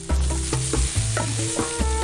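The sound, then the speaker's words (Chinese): Dried milk fan cheese sizzles as it roasts flat on a stove over low heat while a wooden stick presses it down. Repeated scraping and pressing noises recur at a fairly regular rhythm over a continuous frying hiss. “平铺在炉子上，小火慢烤，木签固定一端，木棒按压，使乳扇均匀受热，逐渐软化。”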